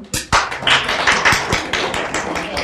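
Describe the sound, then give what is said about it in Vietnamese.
An audience claps hands, with a loud burst of sharp claps near the start followed by many irregular, overlapping claps that carry on at a fairly even level. “Các bạn nói nhỏ quá, tay vỗ tay cho lớn.”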